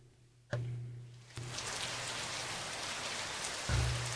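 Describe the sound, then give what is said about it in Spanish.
Rain falls in a dense, even hiss that begins abruptly after a short low hum and continues steadily. A low droning tone returns underneath near the end. “Lluvia cae.”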